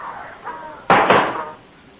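A door on a boat slams shut with one sharp, loud bang partway through, followed by a brief rumbling decay over a low, muffled background.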